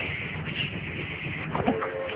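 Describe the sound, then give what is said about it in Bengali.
A train runs along its tracks at night, giving a steady, muffled rumbling roll that stays fairly even throughout, with a few brief clattering knocks toward the end. “Train চলছে চলছে, খটাখট খটাখট, হুস”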